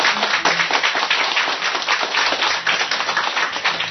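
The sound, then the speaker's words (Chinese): Applause from an audience for a Buddhist master after a dharma talk, a loud, dense patter of many hands clapping steadily throughout without voices. “如果您觉得是正确的话，应该要给法师掌声鼓励一下，”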